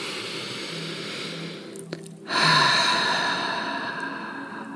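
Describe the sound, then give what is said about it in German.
A deep breath in, then out through the mouth: a soft, steady airy intake gives way to a louder breathy hiss on the exhale that slowly fades, with no talking. “atme einmal tief ein und über den Mund wieder aus”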